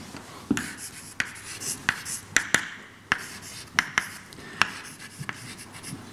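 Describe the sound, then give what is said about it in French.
An equation being written by hand: sharp little taps and short scratchy strokes come at an irregular pace, fairly faint against a quiet background. “Je vais vous écrire... l'équation”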